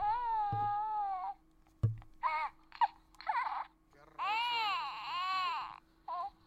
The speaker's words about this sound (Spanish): Este es el primer Yoda que compré. Eh, está sencillo, no solamente la aplastas y llora.